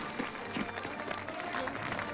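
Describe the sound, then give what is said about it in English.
Crowds of onlookers watching a parade, a soft, continuous wash of clapping and crowd murmur kept at a low level. “As Emil attempts to merge with the crowds watching the parade, Gunther appears, snapping the brim of his hat as he prepares to give chase.”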